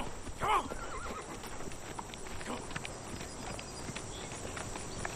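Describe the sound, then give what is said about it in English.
A horse whinnies once near the start while plowing farmland, followed by faint, scattered hoof clip-clops over a steady background hiss. “Through a window, Marty peers at a horse and Clark plowing land.”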